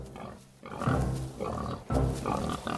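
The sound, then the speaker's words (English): A pig gives a few low, throaty grunts while an old man leads it over leaf-strewn ground. The grunts come in short bursts separated by brief pauses. “The old man leads the pig over leaf-strewn ground as the squirrel watches from nearby branches.”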